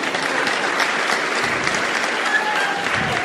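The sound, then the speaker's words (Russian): Applause from a church audience during a sermon: a dense, steady wash of many hands clapping that holds at an even, loud level for the whole stretch. “Если меня понял, подари Богу аплодисменты.”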